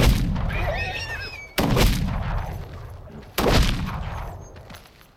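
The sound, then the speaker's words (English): Three loud gunshots, fired downward at wounded horses, crack out at even intervals. Each sharp blast is followed by a long, rumbling, decaying tail. “I went to the opening and fired down at the injured creatures until they were still and at peace.”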